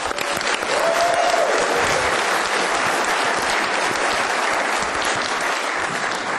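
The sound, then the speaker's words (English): An audience at a live tech conference gives steady, dense applause that holds at full strength throughout, with no talking over it. “Give them a big hand.”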